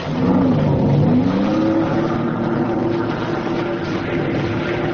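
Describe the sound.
A motorboat with two Johnson outboard engines starts and revs: a loud motor drone whose pitch climbs over the first couple of seconds, then holds as a steady, sustained hum with no voices.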